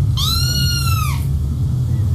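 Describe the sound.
A yellow cat sitting on a table gives a single drawn-out meow, a clear high tone that holds steady and bends down slightly at the end, over a constant low hum.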